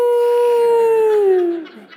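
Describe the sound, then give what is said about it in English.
A man's voice imitates a dog howling along to a song: one long, sustained, tuneful tone that holds steady, then slides down in pitch and fades out. “every time the song would go to a certain place, that dog would lift up his voice and go, "Oh,”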